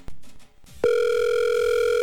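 A steady telephone ringing tone on a call that goes unanswered starts after a brief click and holds unbroken to the end, loud and even with no voices.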